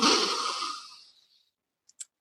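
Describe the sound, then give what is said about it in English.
A person takes a deep breath during a childlike breathing exercise. A loud, airy rush fades away over about a second, then two faint clicks follow. “we're going to take a nice deep breath up in the air.”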